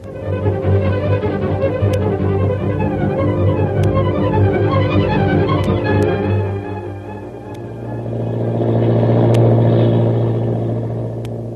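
Droning engine of an airplane in flight: a loud, steady low rumble layered with harmonic hum, dipping briefly before swelling again toward the end, with no voices.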